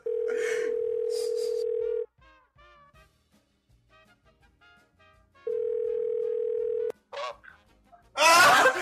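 A telephone dial tone plays as a call is placed again after a dropped line: a steady, loud mid-pitched tone held for about two seconds, then faint murmuring, then the same tone for about a second and a half, ending in short noisy bursts.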